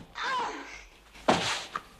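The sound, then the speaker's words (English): A man kicked onto a glass table in a fight: a faint rustling scuffle, then a sharp thudding impact followed by a brief shuffle and a smaller knock. “Bambi kicks Bond onto a glass table, then as he stands, grips his head with her thighs.”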